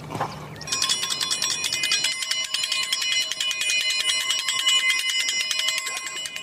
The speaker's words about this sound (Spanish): ¿Hago sonar el triángulo?